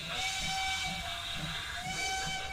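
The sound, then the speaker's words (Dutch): Whistle of a small model steam locomotive about 20 cm long: a sustained, piercing steam-whistle tone over constant hissing, its lowest note dropping out briefly midway before returning. “Klinkt als een flinke stoomtrein, niet? Nou, schijn bedriegt. Ik kan hem namelijk niet alleen horen, maar ook zien. En ik schat hem zo'n 20 centimeter lang.”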